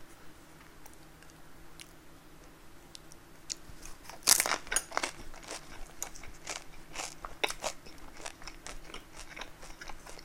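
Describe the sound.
Someone eats toasted bread plain, with no spread. One crisp, crunchy bite is followed by many quieter crackling chews, and the whole sequence sounds faint.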